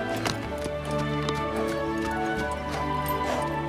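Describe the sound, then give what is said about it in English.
Hoofbeats of a black stallion circling with a rider on a cloth saddle, a steady run of clip-clop thuds over sustained music. “Now she rides on a cloth saddle as the black stallion continues making circles.”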